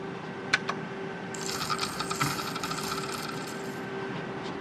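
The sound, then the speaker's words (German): A casino slot machine pays out credit after its cash-out button is pressed: a couple of sharp clicks, then a steady metallic rattling whir that runs to the end over a constant electronic hum. “Das heißt, ich nehme jetzt meinen Kredit mit. Dafür drücke ich auf Auszahlen.”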